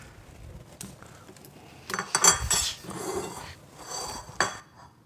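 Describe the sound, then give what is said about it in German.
Plates and cutlery clink as food, meat topped with parsley, is dished out: a run of light ceramic and metal knocks, with a few sharper clatters standing out, and no talking. “Wenn du mir 2 Teller geben würdest, könnte ich anrichten.”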